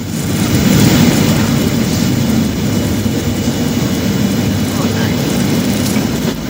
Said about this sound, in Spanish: Acabáis de entrar en un avión, aprovecharos bien el cinturón porque nos dirigimos hacia Estados Unidos.